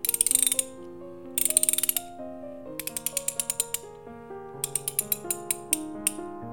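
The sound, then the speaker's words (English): A socket wrench ratchets in a few bursts of rapid, sharp clicks, with a steady tonal background running beneath them throughout. “Now, give me socket wrench. There.”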